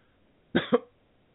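A short, harsh cough or throat clearing with two quick bursts, the second slightly sharper, alone against near silence.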